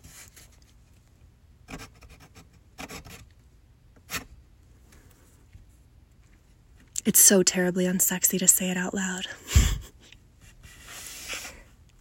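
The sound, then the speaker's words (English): A pen scratches as a phone number is written down by hand. A few faint, short rubbing strokes are spread through the quiet, and a voice speaks briefly partway through. “Here, let me write it down.”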